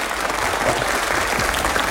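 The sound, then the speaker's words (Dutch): Audience applause fills the whole clip as dense, steady clapping at an even, loud level, with no pauses and no clear voices. “Ja, ja, applaus.”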